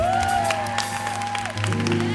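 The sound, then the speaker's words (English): Audience applause for the instrumentalists at a live show: steady, dense clapping and crowd noise run throughout over a sustained musical tone. “You don't see the instrumentalists as much as you do the vocalists, but give them a big hand.”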